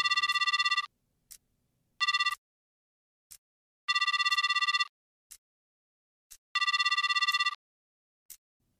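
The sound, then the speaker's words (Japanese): Unanswered outgoing telephone call ringing: bright, buzzy ring tones repeat in a few long bursts, with short chirps between them and silence in the gaps. No one speaks. “電話電話。あれ？出ないな。”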